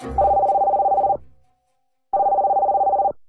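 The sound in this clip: A telephone rings with an incoming call: two long bursts of a steady, warbling mid-pitched bell tone, each roughly a second long, separated by a short silence.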